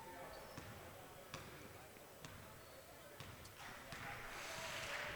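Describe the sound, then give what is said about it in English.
A basketball is dribbled during a game at George Ranch, with a steady series of hard, hollow bounces at a moderate pace and voices murmuring faintly underneath. “Ten seconds to play in this 26A basketball game this afternoon at George Ranch. Longhorns will dribble the last few seconds away.”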